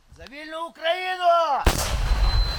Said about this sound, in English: They fire an anti-tank rocket-propelled grenade unconventionally at Russian troops a mile and a half away.